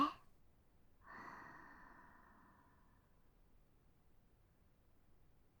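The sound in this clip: A slow, soft exhale during a guided relaxation breathing exercise: one faint, airy breath that starts after a second and fades out gradually over about two seconds, followed by quiet.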